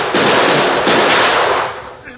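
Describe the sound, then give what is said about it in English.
Pistol gunfire in a Western standoff: loud, rough bursts with a couple of sharp onsets that run together into a sustained noisy roar, fading away near the end. “I'll pull the trigger. Watch out, he's pulled a gun. So have I.”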